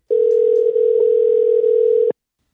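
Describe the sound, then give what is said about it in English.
A steady telephone dial tone plays while a call is being placed. The single unbroken hum lasts about two seconds on its own, then cuts off abruptly. “So we're gonna go ahead and give a call to my buddy DJ Killer Noise.”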